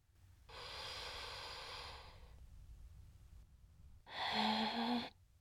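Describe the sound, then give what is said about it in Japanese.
Slow, guided breathing: a long, soft, airy breath out, a pause, then a shorter, louder breath in. Faint and steady, with no talking. “ふーっと吐いて、すーっと吸って。”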